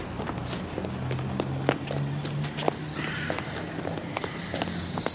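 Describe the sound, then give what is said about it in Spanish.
Quick running footsteps of a boy chasing a man away from a building under construction, many light, irregular taps over a steady low background. “El chico corre tras Latif, que se aleja airado del edificio en construcción.”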